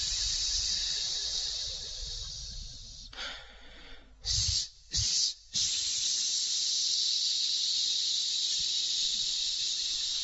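Short hissing exhalations from a diaphragm breathing exercise: three quick, forceful breathy bursts in a row near the middle, over a constant background hiss that runs through the whole clip.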